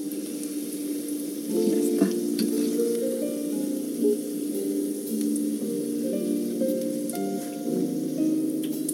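Potato patties fry in a pan with a steady, crackling sizzle, dense popping and spitting running throughout without speech.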